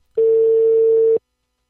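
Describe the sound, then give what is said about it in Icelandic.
A telephone ringback tone plays while a call is placed: a single steady mid-pitched beep of about one second, clean and alone, then silence. “ég ætla að hringja í Svein Ásgeirsson”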